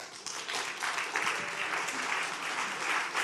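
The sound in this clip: An audience claps to welcome a guest speaker to the stage, giving sustained, even, fairly faint applause throughout with no pause.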